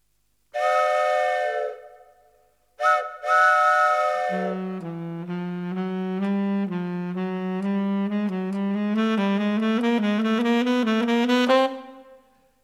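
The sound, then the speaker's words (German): Loud, shrill whistling: two sustained tones, then a fast run of short notes that climb steadily in pitch before cutting off abruptly. “Er wachte durch lautes Pfeifen auf.”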